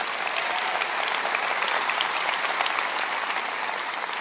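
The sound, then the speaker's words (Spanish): Audience applause fills the whole clip as an even, dense patter of many hands clapping without pause, fairly quiet and with no talk over it. “Dales un buen aplauso.”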